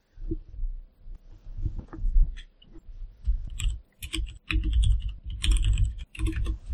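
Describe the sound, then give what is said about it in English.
Typing on a mechanical keyboard fitted with Cherry MX Brown switches: many quick key clacks in uneven bursts with short pauses, each stroke a crisp tactile click over a low thudding base, moderately loud and without talk. “So, this is the Cherry MX Brown type switches. They look pretty interesting. If I can pop a key off here.”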